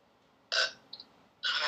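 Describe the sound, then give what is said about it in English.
Two loud, short, throaty burps separated by a pause of about a second, with a faint brief sound in between. “Did you just fart? I burped.”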